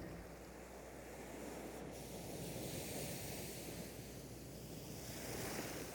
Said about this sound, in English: recorded in the Atlantic Ocean in the Miami area, as well as sounds from the Barents Sea around the North Pole and the tropical oceans